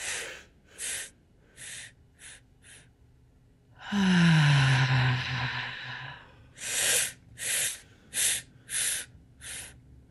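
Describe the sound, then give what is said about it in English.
Deep breathing during a guided breathing exercise: a run of quick, sharp inhalations, then one long voiced exhale falling in pitch, followed by another series of short breath bursts. “And let it fall out. Good. And five breaths in.”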